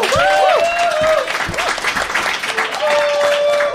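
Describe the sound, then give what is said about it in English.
Audience applause and cheering at a live spoken-word event as performers are introduced: dense, loud clapping fills the whole stretch, with high whoops and shouts rising over it. “Make some noise for Mahogany Brown.”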